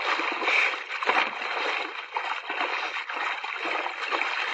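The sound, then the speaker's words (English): Water splashes and sloshes as people swim in a pool, a sound effect from an old radio drama, forming a steady, continuous wash of watery noise with no voices over it. “Come on, let's make the end of the pool. What? I'll give you a couple of yards start. Well, I'll swim there with you, but let's not race.”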